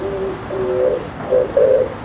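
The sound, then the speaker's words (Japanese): Pigeon cooing: a few low, soft, hooting coos in a steady rhythmic phrase, with the last notes slightly louder than the first. “これよ、これ鳩の言葉では何て言うんですか”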